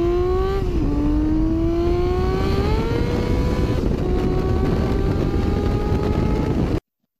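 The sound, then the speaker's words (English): A Honda Civic Si with a VTEC engine revs hard in a loud, continuous drone that climbs in pitch, dips briefly near the start as it shifts gear, then keeps rising before cutting off abruptly. “What's with that VTEC at seven seconds? You like so he found another gear.”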